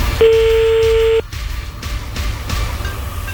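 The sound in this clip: An outgoing telephone call rings on the line: one steady, mid-pitched tone lasting about a second, followed by quiet line hiss.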